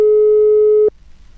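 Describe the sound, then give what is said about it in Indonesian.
A single steady telephone tone sounds while a call is trying to connect, a loud, pure mid-pitched beep lasting just under a second before cutting off to near silence, with no voices. “Langsung saja, ini aku coba terhubung barengan sama beliau terlebih dahulu nih, sobat. Oke, masih coba terhubung barengan sama Bapak Labib.”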